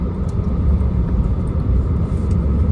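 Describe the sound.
A car driving makes a steady low rumble of engine and road noise. It holds level and continuous throughout, with no talk.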